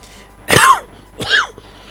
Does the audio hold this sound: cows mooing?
no